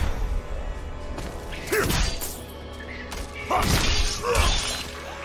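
Bone wall breaking in the video game Diablo IV, heard as a couple of crunching, clattering smash bursts with brittle debris over low game ambience.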